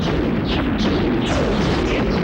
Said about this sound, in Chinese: 既然这样，还是用舰炮射击应战好了